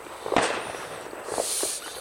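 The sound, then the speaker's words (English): Distant fireworks on New Year's Eve, heard outside from a house deck, give a few faint, muffled pops and thuds over a soft hissing background. “stand outside and hear fireworks from your own house like this. I'm hoping to pick up some more that are louder.”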